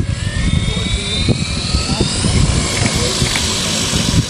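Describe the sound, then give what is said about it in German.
A yellow parcel delivery drone whirs as it takes off on the North Sea coast near the Dutch border. Its rotors make a loud, steady buzzing drone with a low throbbing rumble underneath that never stops. “Nur ein Jahr später, im Herbst 2014, steigt wieder eine gelbe Drohne gen Himmel.”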